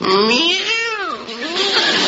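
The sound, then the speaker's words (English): A cat gives a single loud, drawn-out meow whose pitch bends up and then down across about two seconds. “Nice little cat.”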